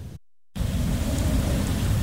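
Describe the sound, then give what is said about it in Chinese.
Heavy rain pours onto a road during a violent storm sweeping the American Midwest, a dense, loud, unbroken roar that starts after a brief moment of silence. “强风呼啸，大雨冲刷路面”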